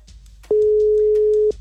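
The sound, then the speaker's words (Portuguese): A telephone ringing tone on a radio call-in line, a single loud, steady mid-pitched tone lasting about one second, starting and stopping cleanly. “Primeiro toque é o Jorge de Nova Iguaçu. Segundo toque.”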